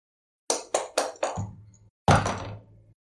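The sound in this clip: Dice rolled on a table during a tabletop role-playing game: four quick, sharp clacks in a row, then a short pause and one louder, longer clatter that rings out briefly.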